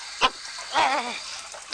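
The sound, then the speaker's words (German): A stiff water tap that needs oiling squeaks as it is turned off. A short sharp squeak is followed by a longer wavering, creaky squeal lasting about half a second, with faint knocks around it. “Der Wasserhahn, hier muss man auch mal wieder ölen, glaube ich, der geht ganz schwer zu.”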